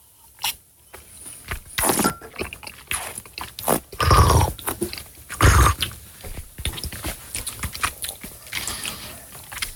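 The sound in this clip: Wine is slurped while air is drawn in during a wine tasting, giving wet, crackling, gurgling sucking noises in irregular bursts that are loudest around the middle, over roughly ten seconds.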